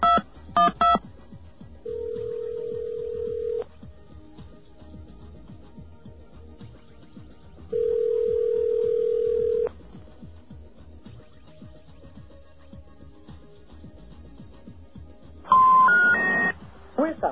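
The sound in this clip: Telephone dial tone and touch-tone dialing of an eleven-digit toll-free number. A few quick beeps open, then two steady tones of about two seconds each stand over a low hum, and a fast run of touch-tone beeps closes.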